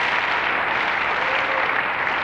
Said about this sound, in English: And you know, when we applaud like that, we're honoring the God that we just worshiped through that music.